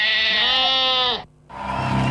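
Sheep bleating: two long, loud, wavering bleats separated by a short pause, the second rougher and lower than the first, with no talk.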